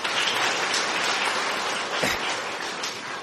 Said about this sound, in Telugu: ఇంతకీ చప్పట్లు అర్థమై కొట్టారా లేకపోతే ఆపేయమని కొట్టారా?